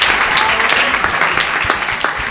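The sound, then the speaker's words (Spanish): A studio audience applauds a guest with loud, dense clapping. A few sharper individual claps stand out near the end, and no one speaks. “Un aplauso para Ángel González. Ay, no puedo aplaudir.”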